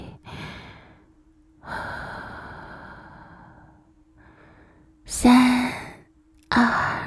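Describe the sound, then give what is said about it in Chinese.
A person breathes slowly during a guided deep-breathing relaxation exercise, with soft, airy inhales and a long, drawn-out exhale. A faint steady low hum runs underneath, and the breaths grow louder and sharper near the end. “吸气，3、2、1，然后吐气。”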